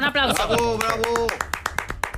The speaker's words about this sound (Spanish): Eso se merece un aplauso, ¿no?